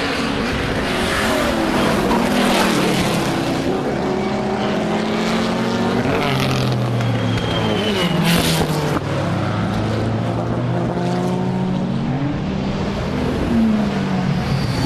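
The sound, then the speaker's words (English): Classic Le Mans racing cars, including a Jaguar D-type and an Aston, pass at racing speed. Loud, continuous engine roar with several overlapping engine notes that rise and fall as the cars change gear and go by. “The Le Mans legends are coming round again, at racing speed this time.”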